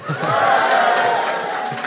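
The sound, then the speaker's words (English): Audience cheering at a live show, a brief burst of shouts and cheers that swells quickly and then tapers slightly. “Cheer,”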